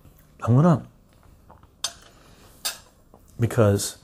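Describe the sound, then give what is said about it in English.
Two light metallic clinks from spoons touching as a piece of garlic is moved from one spoon to the other. The clinks are faint and brief, with soft vocal sounds just before and after. “I'm going to take one piece of garlic out of this, but I'm not going to eat it off the spoon because I want to show you guys the other one as well. I'm going to put it into the other spoon”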